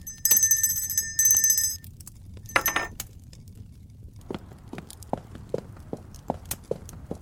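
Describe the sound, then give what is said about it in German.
A hand bell rung by a countess to summon a servant gives two bright, sustained jingling bursts, then a short clink, followed by a steady series of footsteps. “Gräfin haben geläutet?”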